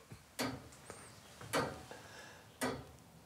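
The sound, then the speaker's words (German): Ticking of a church tower clock mechanism: three loud, sharp ticks about a second apart, with fainter clicks between them and a quiet background. “Also diese ganze Uhr ist in zwei Hälften eingeteilt. Die rechte Hälfte ist die eigentliche Uhr mit dem Kontrollzifferblatt.”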